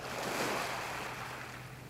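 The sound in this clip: Sea waves wash in a steady, loud rush of surf that holds continuously for the whole stretch, with no distinct breaks or separate crashes.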